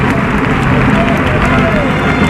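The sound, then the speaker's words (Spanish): A bullring crowd gives an ovation for the banderilleros, a dense, steady roar of clapping with a blur of voices mixed in, loud and unbroken throughout. “Gran ovación para los subalternos.”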